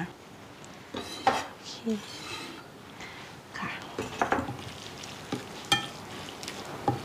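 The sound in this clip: A utensil scrapes and clinks while stirring and mixing ingredients in a bowl, with salt and fish sauce among the seasonings. The faint, irregular clatter continues with scattered sharper clanks.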